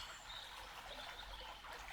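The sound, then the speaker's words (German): Gentle flowing, splashing water, a soft steady trickle that stays faint and even throughout, with no voices. “Und das Fließen und Plätschern des Wassers ergreift nun das Feld um dich herum.”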